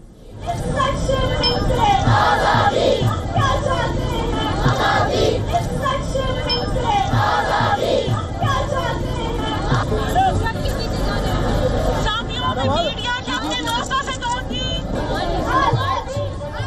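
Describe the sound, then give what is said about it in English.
Crowd at a women's march in Karachi chanting slogans calling for freedom: many voices shout together in repeated swells over a constant background of crowd noise. “Participants carried banners and placards and even chanted slogans calling for freedom. Azadi, as you can hear in these bites.”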